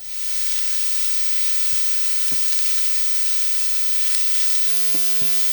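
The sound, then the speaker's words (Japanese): Finely chopped mushrooms sizzle in hot olive oil in a frying pan, a steady, loud frying hiss that runs unbroken from start to end, with a few faint soft pops and stirring sounds. “フライパンにオリーブオイルを入れて熱します。そこにみじん切りにしたマッシュルームを入れて炒めてください。”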